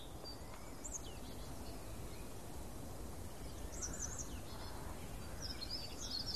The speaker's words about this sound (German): Im Hintergrund hört man rufende Amseln, wippende Kohlmeisen, trommelnde Spechte.